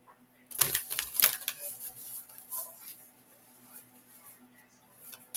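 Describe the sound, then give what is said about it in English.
Cards are pulled from a deck of angel cards: a couple of quick, papery snaps and rustles, then faint handling noise. Quiet overall. “I'm going to pull you another card,”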